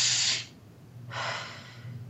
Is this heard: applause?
no